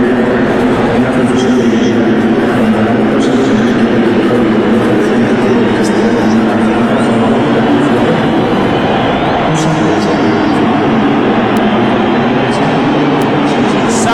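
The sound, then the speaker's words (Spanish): The crowd at Estadio Azteca roars as Mexico's national team goalkeepers come out. The noise is a loud, continuous wash that holds steady throughout, and a voice talks over it. “Así suena el Estadio Azteca, que están saliendo los guardametas de la selección mexicana.”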